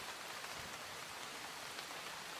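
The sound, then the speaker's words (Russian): Rain pours from an overcast sky as a faint, steady hiss, even and unbroken, with no voices. “С неба, затянутого тучами, лил дождь.”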